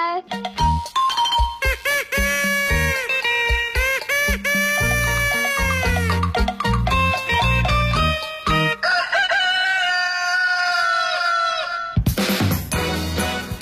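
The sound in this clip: Rooster crowing and clucking inside a lively, loud morning jingle, with repeated long, arching calls over music and singing voices. A short burst of busy, louder sound ends it.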